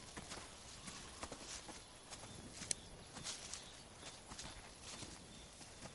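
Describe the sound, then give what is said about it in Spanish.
Faint footsteps of people walking through a forest: a soft, steady series of steps with an even rhythm and no speech over them. “Panorámica del bosque. Continúan caminando por el bosque.”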